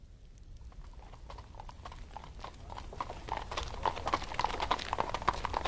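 Hooves clip-clop steadily as a horse draws a carriage along a long road in heavy snow. Many quick, even beats start faint and grow louder and sharper toward the end, with no talk over them.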